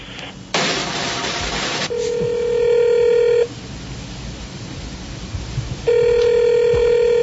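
Telephone menu line tones: a short burst of hiss, then a steady electronic tone held for over a second, a quieter gap, and the same tone returning at the end.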